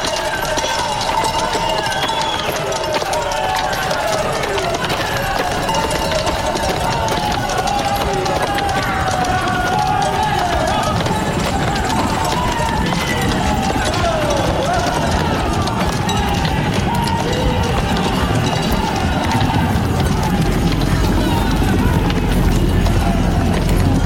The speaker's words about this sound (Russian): Вслед за несметным количеством валов из-за поворота появляется повозка с огромным мрамором.